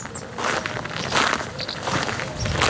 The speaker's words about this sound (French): On marche dans le cimetière de la Coulonche.